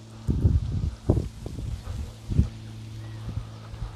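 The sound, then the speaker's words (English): Wind blows outdoors in nature, heard as several low rumbling gusts buffeting the microphone over a steady faint hum. “You can probably hear the wind around me.”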